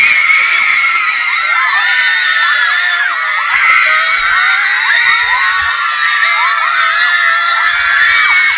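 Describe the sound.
A crowd of girls screams as a band takes the stage, a dense, unbroken wall of high shrieks and whoops with wavering pitches, loud and sustained throughout.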